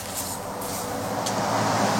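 Road traffic on the Ruse–Byala road in Bulgaria makes a low, steady rumble of passing vehicles, with a few brief hissing swells and no talk.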